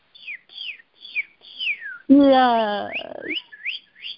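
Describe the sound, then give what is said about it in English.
A person whistles an imitation of a bird call: a run of short, bright chirps, each sliding downward in pitch, broken midway by a louder buzzy voiced sound before the whistled chirps resume. “if it were a bird, it would sound like this.”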